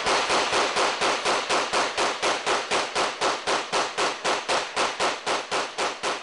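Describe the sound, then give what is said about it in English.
A semi-automatic knockoff of the AK-47 rifle, fitted with an oversized magazine, fires many rapid, evenly spaced shots. Each crack is loud and sharp, about four per second in an unbroken regular rhythm. “he shows a video he made of himself firing another perfectly legal weapon, a knockoff of the AK-47, outfitted with an oversized ammunition magazine made before the ban.”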